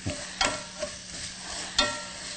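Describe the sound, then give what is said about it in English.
Onions sprinkled with sea salt fry in hot oil while large chopsticks stir them. A soft, steady sizzle is broken by a few sharp scraping stir strokes. “Give that a stir. And we're going to let this cook for a few minutes until about 20 minutes or so, until they're nice and reduced and brown and caramelized.”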